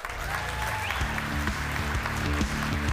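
Audience applause welcoming two Donegal local heroes to the stage, a steady, dense clatter of clapping that continues throughout, with a rhythmic musical tune joining in after about a second.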